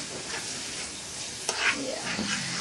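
Food stirred while frying in a pan after soy sauce or Maggi is added: a steady, dense sizzle with a few louder scraping strokes of the stirring, and no talk.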